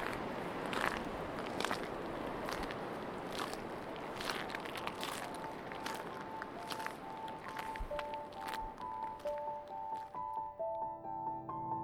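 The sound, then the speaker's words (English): Footsteps crunch on broken, shattered shells by the sea, many crisp, gritty steps in a steady walking rhythm with no talk. “Planting all these broken, shattered shells, and I love the sound of that crunching on my feet.”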